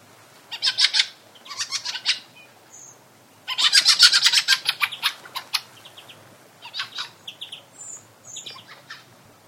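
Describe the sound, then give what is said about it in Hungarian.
Fieldfare calls ring out in repeated bursts of harsh, rapid, clipped chattering notes, a loud cluster in the middle, with a few thinner higher calls scattered between. “Hallgassuk is meg most az első, a fenyőrigó hangját.”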